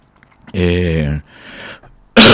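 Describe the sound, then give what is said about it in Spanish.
Throat clearing from a speaker troubled by a sore throat: a long, rough voiced rasp, then a quieter breathy stretch, ending in an abrupt, loud burst. “ahora tenemos un problema aquí de la garganta”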